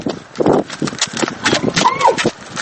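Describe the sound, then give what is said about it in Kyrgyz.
Horse hooves clip-clop as a boy rides a horse while leading a camel. The rhythmic hoofbeats run throughout beneath a man talking. “Алдыбыздан ат минип төөсүн жетелеген бала чыкты.”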